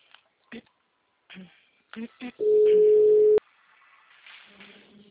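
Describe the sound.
An outgoing telephone call gives a single steady ringback tone of about one second in the middle. Short bursts of voice come before it and faint talk follows.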